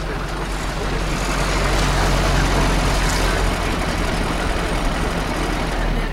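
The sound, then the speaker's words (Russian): A van's engine runs with a steady low rumble as the vehicle drives up and arrives. The drone holds an even, continuous loudness throughout, with no voices. “Лёша подъезжает на своем фургоне.”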